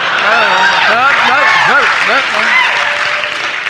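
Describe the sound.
Audience applause during a live performance, a dense, steady patter of clapping with people calling out loudly over it.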